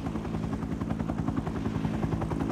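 Propeller aeroplane in flight, a flying machine with its propeller mounted on the roof: a loud, steady engine drone with fast, rhythmic beating of the blades throughout, no voices.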